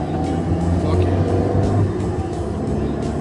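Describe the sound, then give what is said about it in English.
Steady engine drone of a car driving, a continuous low rumble with a faint, even hiss that holds at the same loudness throughout. “Let me get my driving sound effects here. Driving.”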